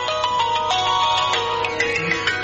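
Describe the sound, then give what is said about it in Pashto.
A mobile phone ringtone plays a bright, electronic melody of short repeated tones. It is loud and continuous, with no speech over it. “د موبایل زنګ دی، ځواب ورکړه.”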